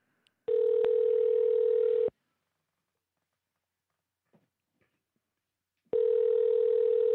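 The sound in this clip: A telephone line tone plays while a call is placed back: two loud, steady, level tones a few seconds apart, separated by near silence with a few faint clicks.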